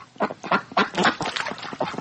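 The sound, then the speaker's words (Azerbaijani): Geese grazing at a dried-up, muddy pond in a yard give a steady run of honking, quacking calls, many short overlapping cries in an uneven rhythm with no pauses. “Həyətlərindəki suyu qurumuş, lilli gölməçədə qazlar otarır.”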